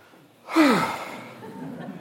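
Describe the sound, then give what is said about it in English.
A deep breath taken during a church talk: one breathy rush with a brief voiced tone that falls in pitch, then tails off into quiet. “right now, we can take a deep breath and just,”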